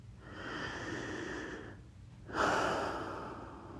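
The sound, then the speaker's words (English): A long, deep breath, with a slow, airy inhale, a brief pause, then a louder, breathy exhale trailing off. “Let's take a long deep breath.”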